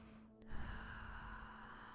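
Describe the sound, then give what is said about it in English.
A slow, deep breath in and out during a guided relaxation exercise, soft and airy and quite faint, with no talking. “And with that, another deep inhale and exhale.”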